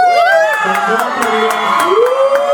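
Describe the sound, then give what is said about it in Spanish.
Loud audience cheering and applause for a performer: shouts and whoops rise and fall over steady clapping, with children's voices among the crowd. “Un aplauso a 360.”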